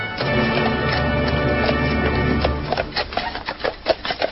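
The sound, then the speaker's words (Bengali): Hooves of a horse pulling a hired carriage clip-clop in a loose, irregular run of sharp knocks that follow a steady low rumble. “তাই আমি কাছেই একটা মান্থনিবাস থেকে একটা ঘোড়ার গাড়ি ভাড়া করে নিয়ে রওনা দিয়ে দিলাম।”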